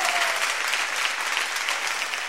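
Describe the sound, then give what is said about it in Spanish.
Concert audience applause, a dense, steady wash of clapping from a crowd that holds at an even level for the whole short stretch. “Un aplauso”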